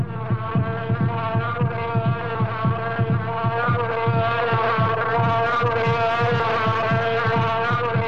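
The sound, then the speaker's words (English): Heartbeat thumping in a steady, even rhythm of many low beats, set against a strong continuous droning hum with a throbbing quality. “What you hear is your heartbeats. Kind of a knocked-out tempo,”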